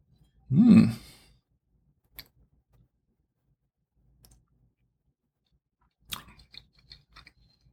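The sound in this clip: A loud slurping sip of red wine with blackberry and raspberry notes, then long quiet gaps broken by a few soft mouth clicks and smacks as the wine is tasted.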